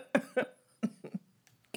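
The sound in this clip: Throat-clearing coughs from a man whose throat is irritated after eating walnuts: a few short, rough bursts with brief pauses between them, the last one sharp and isolated.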